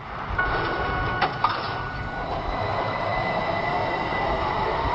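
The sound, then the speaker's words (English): An electric tram runs in Turku, Finland, in 1972, giving a steady rolling rumble with a constant metallic hum. A few sharp squeals or clanks break through near the start. “That's the sound of a tram back in 1972 when they stopped running in Turku, Finland's oldest city and former capital.”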